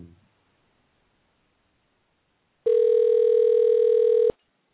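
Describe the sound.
A steady telephone dial tone sounds while a call is being redialed. It holds one even, loud pitch for under two seconds and then cuts off abruptly, with no voices over it.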